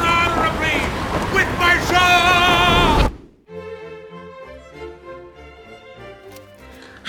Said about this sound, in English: Oh, can that be a wall of water? Here it comes! The big one!